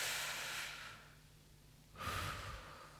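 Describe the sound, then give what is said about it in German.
Deep breathing during a calming exercise: two long, airy breaths separated by a short silent pause, soft and hushed with no voices. “Also noch einmal für jeden beendeten Punkt ein tiefes Einatmen.”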